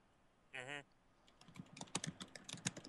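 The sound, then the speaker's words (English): Fingers type on a computer keyboard in a quick, irregular run of light clicks that starts after a short pause and stays faint throughout. “I gotta type something. There we go.”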